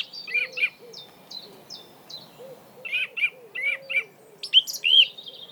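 Birds singing: bursts of high, bright chirps repeated in quick runs, with softer lower call notes beneath, fairly faint and with no voices.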